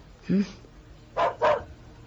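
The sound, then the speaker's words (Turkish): Dogs bark as police arrive at a house: two sharp, loud barks in quick succession, preceded by a brief shouted human voice. “Köpeklere dikkat edin. Tutun şunları.”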